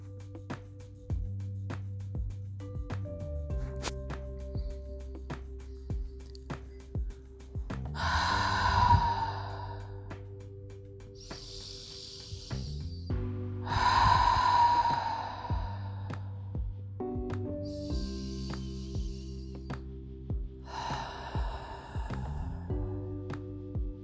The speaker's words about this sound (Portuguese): Dessa vez a gente vai inspirar pelo nariz e soltar o ar pela boca três vezes.